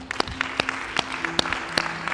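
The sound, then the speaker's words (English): A standing audience claps in celebration, with loud claps falling on a steady, even beat and softer scattered claps filling the gaps between them. “I want you to just rise with me and let us just celebrate by just clapping.”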